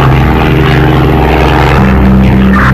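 A propeller aircraft drones steadily in flight during a piloted training flight, a loud continuous engine and airscrew roar with a strong low hum and steady tonal harmonics, and no talk over it.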